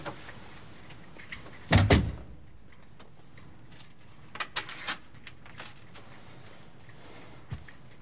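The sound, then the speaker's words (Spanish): A door swings shut with a firm thud, followed a few seconds later by a few small metallic clicks as its latch is locked, with no voices. “El hombre de Raikar entra cerrando la puerta tras de sí con pestillo”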